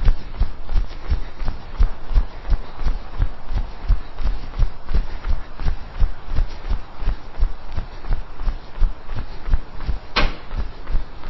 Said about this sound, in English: Standard high knees drill. Thighs up, parallel to ground. Tips of the toes, balls of the feet. And jog.